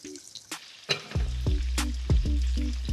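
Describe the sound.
Breadcrumbed pieces drop into hot oil with a few sharp splashes and crackles, and the oil then sizzles and bubbles steadily and loudly.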